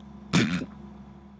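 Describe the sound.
A man gives a single short cough to clear phlegm from his throat. It is one sharp, brief burst, followed by quiet.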